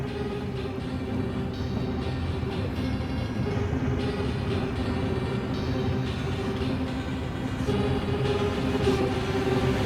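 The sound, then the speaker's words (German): A vehicle carrying a load of whisky arrives, a steady, broad engine rumble with a low droning hum that continues without a break for about ten seconds. “Da kommt sie ja, die Whiskyfuhr.”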